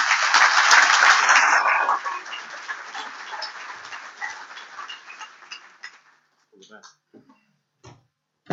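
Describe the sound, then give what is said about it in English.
Audience applause welcoming a speaker at an event on designing cities with people in mind: a loud, dense burst of clapping that thins into scattered claps and fades out, leaving a few faint isolated taps near the end. “Would you put your hands together and give a warm welcome to Valerie?”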